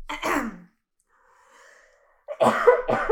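Harsh coughing from someone with something stuck in the throat while drinking tea: a short burst of coughs, a quiet pause with faint breathing, then a few more rough, throaty coughs.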